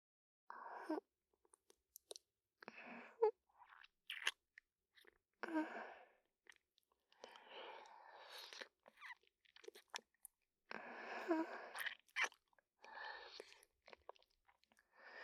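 Someone is chewing caramel candy: soft, sticky, wet mouth sounds with light crunches. The chewing comes in many short, quiet bursts separated by brief pauses.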